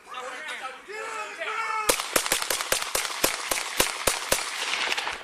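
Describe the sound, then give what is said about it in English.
Gunshots fired by a police officer in a backyard: after a shouted voice, many sharp, loud shots crack in rapid, slightly uneven succession. “That's the officer shooting the boy 11 times.”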